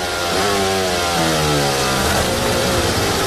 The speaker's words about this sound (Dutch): En het glonk-glonk geluid is het grind waar hij doorheen rijdt.